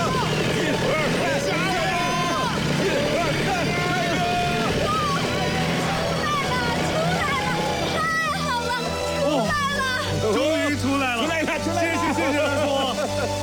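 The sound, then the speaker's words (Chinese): Car engine revving as several people push a stuck car from behind in the cold, a low, steady engine drone running under loud, overlapping shouts and talk. “好，我再去加点油门。 我们都到后面推，再试一次。”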